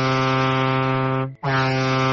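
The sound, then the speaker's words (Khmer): A passenger boat's horn sounds its departure signal for Phnom Penh: a loud, steady, deep brassy blast with rich harmonics. A brief silent break follows, then a second, shorter blast. “ប៉ាល់កាណូតបន្លឺឮទូនទូន3 4ដងជាសញ្ញាប្រាប់នៃការចិត្តចេញដំណើរទៅភ្នំពេញ”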